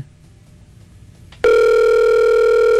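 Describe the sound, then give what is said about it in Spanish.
A telephone dial tone sounds as a call is placed. A quiet, murmuring background gives way abruptly to a loud, steady, unbroken tone that holds to the end. “Yo lo voy a llamar”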